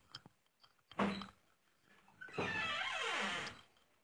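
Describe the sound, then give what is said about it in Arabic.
A window being pushed open: a short knock or clunk first, then a long grinding slide of about a second with squealing tones that sweep in pitch as the frame moves, fairly loud and with no voices. “طب افتح الشباك ده ربما يجي شوية. لحظة واحدة.”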